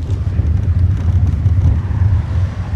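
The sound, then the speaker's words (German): Low, steady engine rumble of a car leaving a country road for bumpy tracks and sandy paths, with a dense continuous drone and slight uneven swells and no talk. “Wiącek dirigiert den Wagen runter von der Landstraße über Holperpisten und Sandwege.”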